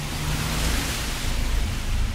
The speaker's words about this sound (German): Es regnet. Ich renne. Der Regen prügelt mein Gesicht. Der Wind beleidigt mich, steht mir im Weg.